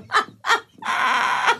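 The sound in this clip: A chicken-clucking phone ringtone: two short, bright clucks followed by one longer, sustained squawk, loud and alone with no voices.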